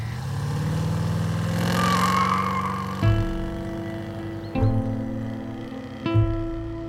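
A car engine pulls away with a steady low drone that builds, then three sharp surges at fairly even intervals, each settling into a held tone; no voices.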